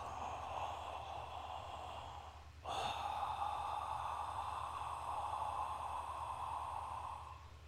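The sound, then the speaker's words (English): A person imitates a masked villain's heavy mechanical breathing with a loud, rasping, throaty breath. It forms two long, steady phases separated by a brief break. “we're going to do Darth Vader breath. Have you learned this before? Have you seen this before? So you know how Vader breathes? How does he breathe? Can you make that sound?”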